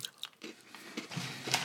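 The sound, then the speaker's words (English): Someone chews light, crunchy, crisp-like snacks, making several faint crunches and bites in an uneven rhythm, with no talking. “they're very Moorish, so it makes you want to chew them quicker and eat them quicker. Yeah. You start sort of devouring these things like crisps.”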